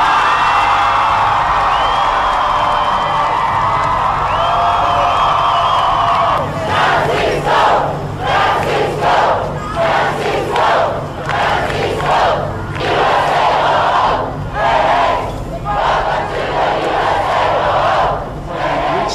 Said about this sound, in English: Breaking news tonight, the Pope in America, a rousing welcome for the man who's been called the rock star Pope, Francis begins a historic visit.